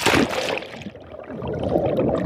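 Water sloshes and gurgles as someone goes underwater in a volcanic lake in western Guatemala. A louder rushing splash at the start gives way to a steady, muffled bubbling rumble.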